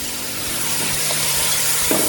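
A mixture of vinegar and lemon juice hits a hot pan already holding saffron and dried spices, giving a steady, dense sizzling hiss that runs evenly and fairly loud throughout, with no talk.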